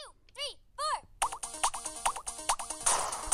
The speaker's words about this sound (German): Richtig verrückt ist natürlich die Laserkanone, weil du bist im Weltraum und da gibt es irgendwelche Raumschiffe und die darfst du dann sogar abballern im Takt.